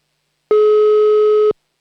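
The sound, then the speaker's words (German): A telephone line tone sounds after a number is dialed: one steady, pure, mid-pitched beep lasting about a second, loud and alone, with silence before and after. “Hier habe ich eine Anmeldung und wir müssen wieder eine Telefonnummer wählen. Und dann schauen wir mal. Hoffentlich hebt auch jemand ab.”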